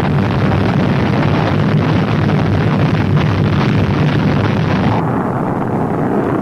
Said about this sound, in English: It was not by chance that Apollo 7 lifted off only 2 3/4 minutes after the appointed moment. 5. Ignition.